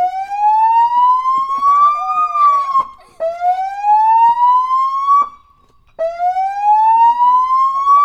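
A police car siren sounds alone and loud in three long wails, each tone climbing steadily in pitch before cutting off abruptly, with short gaps between them.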